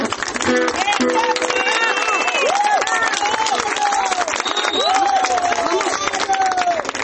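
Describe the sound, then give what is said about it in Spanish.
Applause and cheering from a concert audience after a song. Continuous dense clapping mixes with shouting voices and whistle-like calls throughout, staying loud and even from start to finish. “Gracias por los aplausos.”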